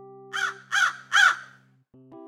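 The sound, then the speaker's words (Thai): Three harsh, raspy caws from a large iron-beaked crow, evenly spaced and rising in loudness, over a low steady hum that ends with a couple of short tonal notes. “แย่แล้ว แย่แล้วนั่นมันนกกาปากเหล็กนี่นะ”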